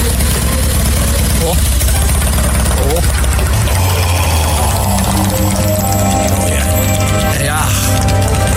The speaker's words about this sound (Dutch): En wat wil je met een Harley? Niets liever dan rijden. Hoor dat geluid.